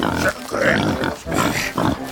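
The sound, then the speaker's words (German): A captured wild boar, carried under someone's arm, grunts and snorts in a few rough, low bursts, with no talk. “Obelix klemmt sich ein gefangenes Wildschwein unter den Arm.”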